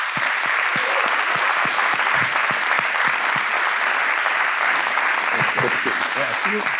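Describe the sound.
Sustained audience applause greets a guest speaker at a group gathering, dense and steady through the whole stretch, with some voices mixed in toward the end.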